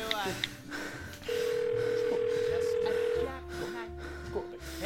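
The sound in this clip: A telephone tone sounds as a call is placed to a landline: one long, steady beep of about two seconds, then a lower sustained tone, with people talking before, over and after it.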